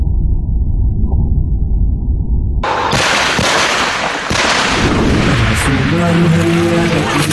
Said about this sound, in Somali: Waxaa hadda soo shanqaraya oo la maqlayaa gawaarida ciidamada Itoobiya waxaa ugu horeeya gaari taangi ah.